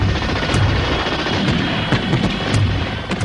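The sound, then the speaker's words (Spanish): Loud, dense gunfire shooting at a Soviet military convoy on a main road. A continuous roar of shots with sharp cracks throughout, and no voices. “Con gran precisión dispara y elimina a uno de los vehículos soviéticos.”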